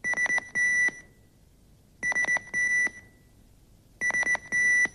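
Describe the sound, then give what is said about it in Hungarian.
Electronic beeps of a Nokia operator pager: three identical bursts about two seconds apart, each a quick run of short, high, bright beeps ending in a longer held tone, with silence in between. “Egy ilyen sípjel után fontos információk jelennek meg a Nokia gyártmányú operátor személyi hívó kijelzőjén.”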